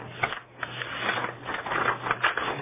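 A sheet of paper is folded, giving soft crinkling and rustling bursts in an uneven series, fairly faint and muffled, with no talking.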